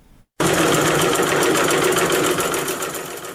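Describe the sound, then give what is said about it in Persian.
Sewing machines stitch cloth face masks in Faryab, Afghanistan. After a brief quiet moment, a loud, continuous, rapid mechanical whirring starts and eases slightly toward the end. “این صدای چرخ ماشین های خیاطی است.”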